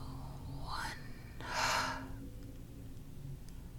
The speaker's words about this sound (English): Breathe in two, three, four. Hold at the top. Exhale, four, three, two.